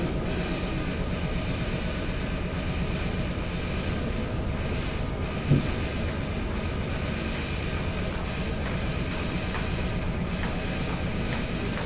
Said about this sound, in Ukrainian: Поїзд знаходиться на другій колії. Нумерація починається з голови поїзда.